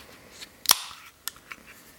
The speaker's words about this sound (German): ich habe mein Glas hier schon mal bereitstehen und ich mache das Bier jetzt auf